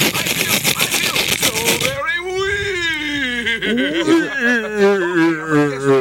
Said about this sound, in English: Oh, you got me. That's not even a good machine gun.